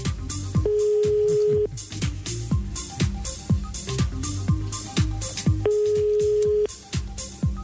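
A telephone call being placed to a household's number: two long, steady ring tones sound about five seconds apart over a busy, rhythmic background.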